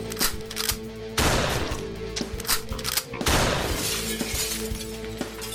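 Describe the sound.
Video game gunfire sounds as two loud, harsh bursts with crackling, shattering tails over a steady tonal game backdrop.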